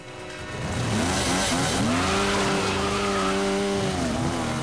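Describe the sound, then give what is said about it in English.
Two fast motorbikes start up and ride off: engine noise swells from a quiet start into a loud, sustained roar whose pitch shifts up and down as they rev. “Piper and Dodge start the two fast motorbikes parked outside.”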